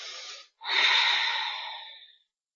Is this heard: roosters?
no